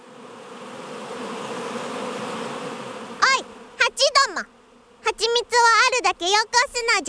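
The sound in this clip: Bees buzzing at a honey-filled hive make a steady, low, whirring drone for about three seconds, then animated voices take over.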